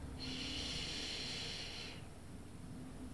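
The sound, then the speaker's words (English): A single long, slow, deep breath in, a soft airy hiss lasting about two seconds, followed by a low, steady background hum. “Take another long, slow, deep breath in”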